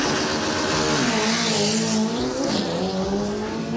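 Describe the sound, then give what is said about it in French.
Dragster race cars launch at the start of a drag race with a loud, continuous engine roar. A thick, steady harmonic drone fills the whole clip with no talk. “c'est ça les courses de dragster, ça fait beaucoup même de bruit.”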